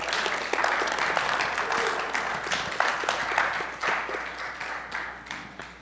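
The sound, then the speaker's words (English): A church audience applauds to welcome a reader to the front. Dense clapping carries individual sharp claps and tapers off toward the end. “Would you give him a hearty welcome as he comes?”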